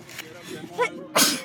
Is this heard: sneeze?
yes

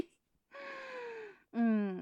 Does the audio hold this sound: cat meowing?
no

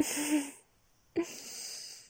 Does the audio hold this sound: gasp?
yes

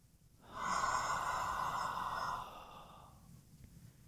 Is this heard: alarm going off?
no

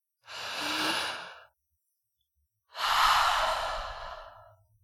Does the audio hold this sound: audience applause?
no

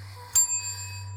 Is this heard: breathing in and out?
no

